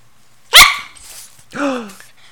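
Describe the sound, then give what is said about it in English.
Two loud barks from a dog, spaced about a second apart with quiet between them; the second bark is longer and its pitch slides downward. “Yeah, my dog needed to be up here for some fucking reason.”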